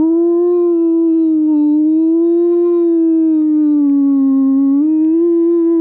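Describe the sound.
A voice imitates a whale call with one long, loud, low hum that holds for about six seconds, its pitch wavering gently up and down, with nothing else heard.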